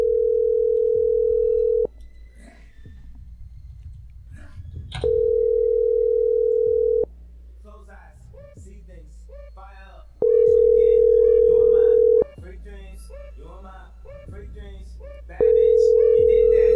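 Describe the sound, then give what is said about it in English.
Ringback tone of an outgoing call to a cell phone, placed from a bridge club: a steady mid-pitched tone in four bursts of about two seconds each, separated by longer pauses in which people talk. “I'm going to call Betty's cell phone and let's see. I'll make sure I'm calling from the Bridge Club this time, so she's going to see the caller ID come up.”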